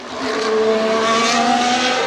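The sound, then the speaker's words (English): Race car engine at a Grand Prix motor race, a loud, steady droning hum with a sustained mid-pitched whine that holds fairly even throughout, with no voices. “The 26th of June 1906 sees the first Grand Prix motor race, which is held in Le Mans.”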